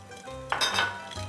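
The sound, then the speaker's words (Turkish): Utensil clinking against a bowl as three eggs are whisked with sugar for a caramelized pear cake: one brief burst of scraping and clinking in mid-clip over a low hum, with no talking. “Evet, şimdi 3 yumurtayı ne yapıyoruz? Şekerle çırpıyoruz.”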